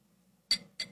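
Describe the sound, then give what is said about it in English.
Water added to whiskey in a glass: two brief, faint splashy drips about a quarter second apart, over a low, quiet hum. “A little ASMR for you, for people. Moving that to a cube. Fingers added a little bit of water.”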